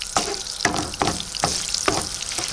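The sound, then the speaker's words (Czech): Bacon fat and lard melt in a frying pan with a loud, steady sizzling hiss, broken by regular louder bursts, like stirring, about every half second. “Nakrajíme si špek, připravíme si pánev a rozpustíme špek trošku sádla.”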